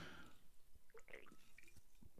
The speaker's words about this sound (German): ein schöner Schluck Chardonnay.